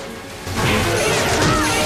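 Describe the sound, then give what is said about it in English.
Heavy punches knock two pirates out of the way in a fight: a loud, dense burst of smacking, crashing hits that run together with no clear gaps. “Mike and Cindy come across two pirates and punch them both out of the way.”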